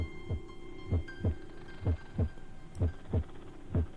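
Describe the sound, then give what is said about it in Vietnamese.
Heartbeats of two people pounding at night, heard as low, heavy thumps in a steady paired lub-dub rhythm over a faint hum. “thậm chí có thể nghe rõ từng nhịp tim của hai người đang đập thình thịch, thình thịch.”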